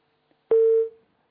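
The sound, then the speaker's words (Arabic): A telephone tone sounds as a caller's line disconnects during a call-in program: a faint click, then one steady mid-pitched beep that holds briefly and cuts off. “انقطع اتصال أم وليد.”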